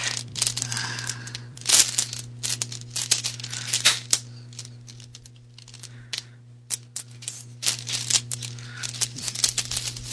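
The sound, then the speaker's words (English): Many dice clatter and click as a hand rummages through a bag of them during a tabletop role-playing session, with irregular bursts of rattling over a low, steady hum. “So many dice in this bag, it's hard to pick out the eights.”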